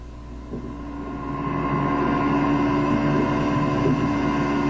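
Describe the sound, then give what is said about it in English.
A pump drones steadily as it moves a dark, gloopy substance, giving a low mechanical rumble with a humming whine on top. It swells louder over the first couple of seconds, then holds a constant level. “this is Assignment on the BBC World Service, starting this week with the sound of a pump moving something dark and gloopy, probably quite evil-smelling”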